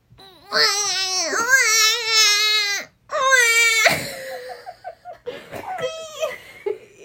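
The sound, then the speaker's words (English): A human voice imitates a crying baby with two long, high, wavering wails, then breaks into shorter, choppier sobbing whimpers that taper off. “should we all do our best baby cry? Because I think I have a good one, too.”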